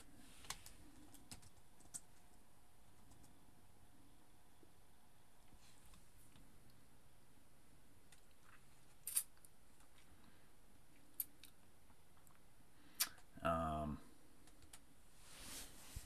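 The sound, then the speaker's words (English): Faint, sparse keystrokes on a computer keyboard as a film title is typed into a movie-database search. Scattered single clicks lead to a brief, busier burst of typing near the end. “IMDb. Type in Dune 2 here.”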